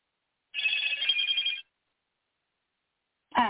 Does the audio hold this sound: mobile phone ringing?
yes